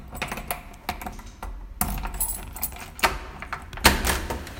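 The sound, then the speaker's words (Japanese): Keys jangle and click as several door locks are unlocked on arrival at a friend's home, many sharp metallic clicks, rattles and clunks in irregular bursts, with no talk. “鍵を開けます。何個も開けるんだけどね”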